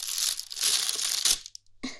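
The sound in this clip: Plastic bag being handled, holding a whip and a collar: bursts of crisp crinkling and rustling, loud and continuous, then a short pause and one more crackling burst at the end.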